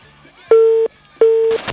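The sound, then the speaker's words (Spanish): Telephone call tone: two steady mid-pitched beeps, each about a third of a second long and separated by a short pause, loud and clear. “A ver, me están llamando por teléfono. Espero que sea real.”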